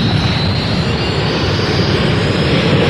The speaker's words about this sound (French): Vous entendez les tuyères du Super Mystère 4B1.